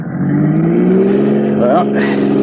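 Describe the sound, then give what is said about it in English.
A car engine revs as the driver accelerates, a steady, loud mechanical drone whose tone climbs gradually, with a brief voice partway through. “Go on, give her the gas.”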